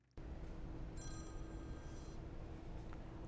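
A telephone rings with an incoming call: a single faint electronic ring burst over steady background hiss.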